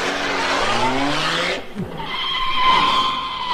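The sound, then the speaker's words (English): A car driving off with its tires skidding, a comic sound effect: a rough, falling engine-like whine gives way after a brief dip to a steadier, high squealing tone, fairly loud throughout. “Drive me there.”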